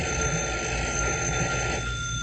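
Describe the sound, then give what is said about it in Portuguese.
A telephone bell rings continuously in a steady, loud metallic trill with no pauses and no voices. “Só por causa da campainha do telefone? Deixa que eu atendo.”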